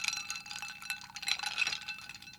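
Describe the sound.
Crushed ice clinks in a drink stirred with a spoon, giving many light, bright, glassy ticks in an irregular, faint stream.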